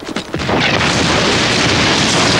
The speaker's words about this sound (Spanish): El tanque dispara y una tremenda humareda engulle de nuevo a Afan